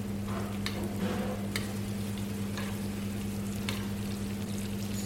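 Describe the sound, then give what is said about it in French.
Meat sizzling in a pan while being basted with foaming butter: a steady, fine crackling hiss throughout, broken by a few sharp clicks, with no talking. “Donc là, on arrose la viande de beurre à chaque fois. Hein. C'est ça, voilà. Plus on l'arrose, meilleur elle sera. Ça fasse une belle mousse bien blonde.”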